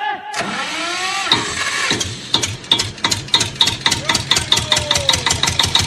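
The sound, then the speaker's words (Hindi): A generator is started and left running: an engine cranks and catches, then settles into a loud, steady run with rapid, even thudding pulses that continue to the end. “ए तो generator चालू कर रहे।”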